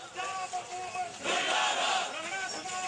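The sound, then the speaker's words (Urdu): Protesters chant slogans against the government during a demonstration and sit-in blocking a road in Faisalabad. Crowd voices rise into a louder surge midway through. “مظاہرین نے حکومت کے خلاف نعرے بازی کی، جبکہ نڑ والا روڈ کو دھرنا دے کر بلاک کر دیا۔”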